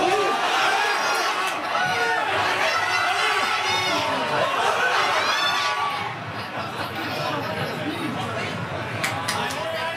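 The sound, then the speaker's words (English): Packed crowd of French football fans at a crêperie on Rue Saint-Jean in Quebec City shouting and cheering during a France–Spain match, excited voices and chatter throughout, easing slightly past the midpoint. “The Billig was packed. French fans cheered loudly with every play, but as you can hear, their enthusiasm sort of stopping following goals from Mikael Oyarzabal and Pedro Porro”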